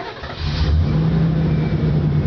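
A truck engine revs, a loud, steady low roar that swells after a brief dip at the start and then holds.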